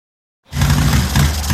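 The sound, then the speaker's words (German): A motorcycle engine sputtering on a cross-country trip cuts in abruptly after a moment of silence and holds a loud, rough, bass-heavy roar with slight surges in level. “bike sputtering on me”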